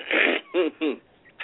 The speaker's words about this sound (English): we got you to create some phlegm there